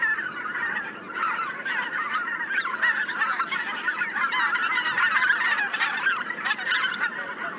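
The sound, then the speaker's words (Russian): White-fronted geese calling: many overlapping high, yelping honks pour out continuously and loudly, a busy chorus of calls with no voices. “А вот это белолобый гусь.”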